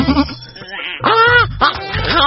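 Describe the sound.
A goat bleats in a few wavering, nasal cries, with a louder quavering call in the middle followed by shorter bleats.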